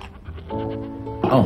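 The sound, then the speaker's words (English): Goats bleating: a steady, nasal harmonic cry followed by a louder, wavering bleat at the end that falls in pitch, over low background noise. “If you'll excuse me, I have to feed the goats.”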